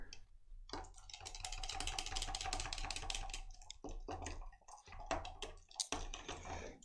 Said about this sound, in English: And we have a Tom Collins. Nice. That little stir.